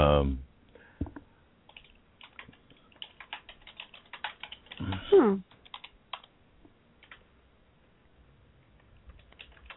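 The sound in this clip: Typing on a computer keyboard gives sparse, irregular soft clicks, with a brief voice sound partway through and faint tapping continuing afterward.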